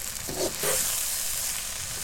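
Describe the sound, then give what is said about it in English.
Food frying in a pan while being stirred with a knife instead of a wooden spoon: a steady, bright sizzle with two short bursts of scraping and stirring early on, then continuous even hissing. “she's delicately mixing this all with a knife because we do not have a wooden spoon”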